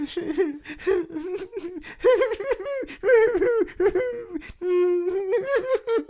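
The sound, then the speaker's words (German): Loud wailing and sobbing from a voice imitating a girl crying after getting lost in the woods: a run of drawn-out, quavering moans and gasping sobs that waver up and down in pitch, with no words. “Und wie so pissdumme Mädels sind, fing sie an, laut zu heulen.”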